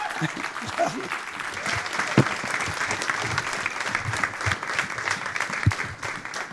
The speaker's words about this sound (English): So would you stand and give Mark and Sue Jones a big welcome as they come this year.